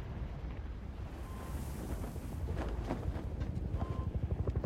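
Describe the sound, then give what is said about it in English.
A helicopter flies away from a fiery inferno, a deep roaring rumble with windy noise, its rotor thumps building into a rapid rhythmic pulse toward the end. “As the helicopter zooms away from the inferno behind it, the screen goes white.”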